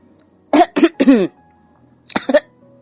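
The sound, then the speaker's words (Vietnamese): Dry coughs from a woman choking on a sip of water: three short, rough coughs in quick succession, a brief pause, then two more, fairly loud and with no talk. “Nhã Tịnh Văn ho khan vài tiếng”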